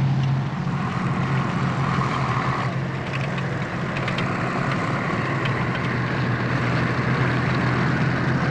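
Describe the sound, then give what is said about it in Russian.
A tank driving under trees in a forest: a continuous, heavy engine rumble with a steady low drone and a broad noisy texture that holds evenly for the whole clip, with no voices. “Танк едет под деревьями.”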